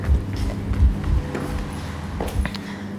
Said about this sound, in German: Wir laufen zügig zurück. Treppe runter.